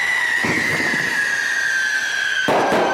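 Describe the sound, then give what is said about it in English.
A loud bottle rocket firework goes off. A shrill whistle slides slowly downward in pitch throughout, with a sharp crackling burst near the start and a louder bang near the end. “he's got one bottle rocket goes off. These are loud too, by the way. I'll throw in a clip.”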